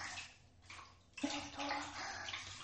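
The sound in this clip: Water rinses off a body in a bath: a faint, steady hiss of pouring and splashing water that drops away briefly near the middle, then resumes more strongly.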